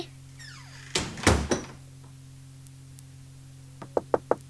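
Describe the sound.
Knocking on a door in a children's story scene: a quick cluster of heavy wooden thuds, then after a pause four sharp, rapid knocks, all over a low steady hum.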